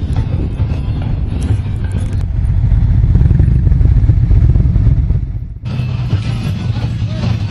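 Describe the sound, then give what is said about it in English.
Motorcycles ride into a parking lot already full of bikes as riders arrive for a gathering. A loud, steady low engine rumble carries on throughout, briefly dipping near the end before picking back up. “Everybody's coming, they're riding in, and things are looking good. Got a parking lot full of bikes, more coming in all the time”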